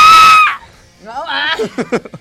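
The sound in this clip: A single shrill, piercing scream rings out loud and steady for about half a second, then people talk.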